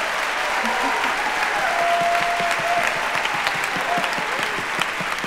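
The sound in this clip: An audience claps at a live show, a steady, dense roar of clapping that lasts throughout, with some voices calling out over it.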